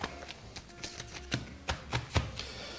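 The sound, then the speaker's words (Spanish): A rolled sheet of puff pastry is unrolled with soft, papery crackling. Many small crinkles and taps come in uneven bursts, faint and alone. “Bueno, vamos a soltar el hojaldre. Vamos a soltar el hojaldre que está enrollado.”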